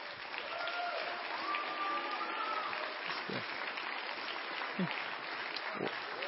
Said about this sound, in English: I don't get standing ovations.